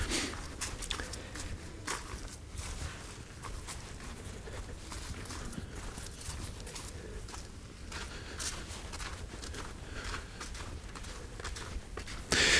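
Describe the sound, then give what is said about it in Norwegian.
Footsteps walk carefully down past a park, a long run of soft, steady steps at a fairly faint level with no talking over them. “Nå skal jeg ned forbi eh, parken her nede. Bare gå litt forsiktig.”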